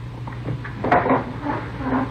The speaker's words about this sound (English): Close the door, huh? Yeah, sure, sir.